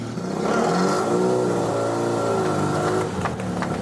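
Engine of a 53-year-old Sebring Sprite sports car, dormant for 46 years, revving in a steady mid-pitched drone that swells slightly early on, holds, then eases off near the end.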